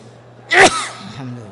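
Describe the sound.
A single sharp sneeze bursts out during a religious lecture, loud and brief, then fades into quieter low sounds.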